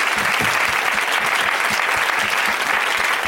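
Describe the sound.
A studio audience applauds the show's guests with dense, steady clapping that holds at an even level throughout.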